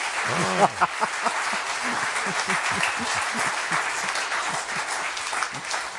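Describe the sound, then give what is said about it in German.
An audience applauds with dense, steady clapping that holds at an even level. A voice is heard briefly near the start. “Meine Damen und Herren, Sie dürfen applaudieren, denn was Sie gehört haben, ist alles richtig.”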